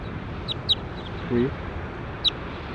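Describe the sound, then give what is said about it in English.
A bird calls in a few short, high, thin chirps, spaced apart over a steady, noisy background hiss. “That was bird three.”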